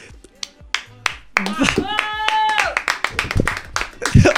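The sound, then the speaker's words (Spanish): Clapping from a few people in a radio studio, sharp irregular claps with a sustained cheering voice rising over them midway. “¡Aplausos!”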